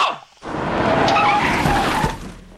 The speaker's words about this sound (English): Two cars pull up.